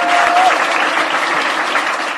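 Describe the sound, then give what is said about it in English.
Applause from a political audience responding to a speech on climate action, a steady dense wash of clapping that holds level and loud throughout the short stretch, with no talk over it. “And that's not my editing, that's their editing, with the claps seeming to come a bit peculiar moments.”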